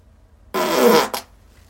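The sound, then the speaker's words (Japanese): A person's fart before heading to the toilet: one loud, rasping blast of about half a second, then a brief second puff, with quiet before and after. “今からトイレなんですけど、おならが出そうなのでここで出したいと思います。”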